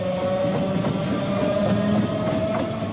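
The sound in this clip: A modernised Spanish regional train, running from Asturias toward Cantabria, rattles along the rails at roughly 30 km/h. A continuous rolling rumble carries a steady tonal whine, with faint rhythmic clatter from the wheels throughout.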